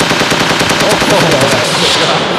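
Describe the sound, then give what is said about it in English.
Machine gun fire rattles without pause, a loud, dense stream of rapid shots lasting the whole two and a half seconds. “Machine guns are popping, dude.”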